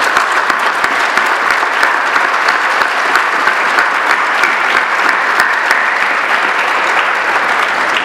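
Sustained applause from an audience at a university congress opening ceremony: dense, steady clapping that holds at an even loudness for about eight seconds, with no talk over it.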